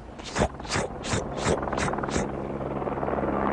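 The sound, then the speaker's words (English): A helicopter over loose, sandy terrain in hot sun: a rapid, regular run of rotor blade thumps over a steady engine drone, blurring into a continuous whir after about two seconds. “and the helicopter appeared.”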